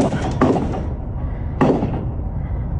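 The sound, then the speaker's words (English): Two sharp gunshots from a shooting near a burger restaurant in Twin Falls, Idaho, about a second apart. Each loud crack trails off into a decaying echo over steady background noise. “Those shots fired near an In-N-Out Burger restaurant in Twin Falls, Idaho, about 130 miles southeast of Boise.”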